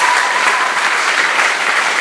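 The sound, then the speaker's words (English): Applause for a student rises as a dense, steady wash of many hands clapping, holding an even loudness for the full two seconds with no gaps or voices. “Final round of applause then. Well done.”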